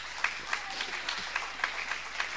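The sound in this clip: A church audience claps in unison in acclamation of the Lord, a fairly faint, steady rhythmic beat of many hands striking together at an even, quick pace throughout.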